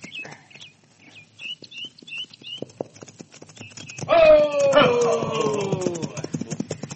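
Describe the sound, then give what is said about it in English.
Clip-clop of hooves as horses with riders approach along a trail: a steady, fairly soft patter of many hoofbeats that grows louder and denser in the second half. “Riders are coming.”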